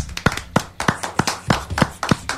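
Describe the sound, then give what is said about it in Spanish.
Sharp hand claps in a steady rhythmic beat, several crisp slaps evenly spaced with lighter taps between them, clear and dry with no talking. “Que se escuchen los aplausos.”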